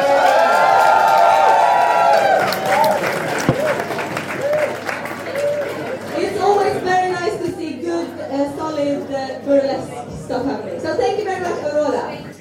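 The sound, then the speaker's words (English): Audience applause and cheering at a burlesque event: dense, steady clapping from a crowd with voices mixed in. “So give her a warm applause.”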